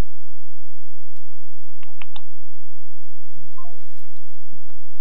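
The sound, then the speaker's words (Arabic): Telephone tones as an incoming call is connected: a few short, separate electronic beeps and a brief stepped sequence of tones sound over faint background hiss, with no talk. “نستقبل اتصال آخر. معنا اتصال.”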